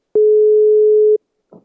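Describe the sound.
Telephone line tone heard while dialing a number: one steady, mid-pitched beep lasting about a second, then a faint murmur of voice.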